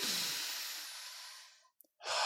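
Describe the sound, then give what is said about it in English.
A long, slow breath taken during a guided breathing exercise: a soft, airy rush of air that fades gradually. After a brief silence, the next breath begins. “We're going to start with 3 long, slow breaths.”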